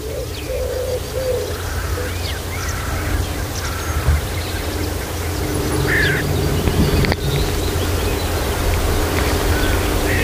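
Common redstart song, recorded with microphones placed just beneath the singing bird: short, bright phrases repeated at intervals over a steady wash of outdoor noise and a low hum.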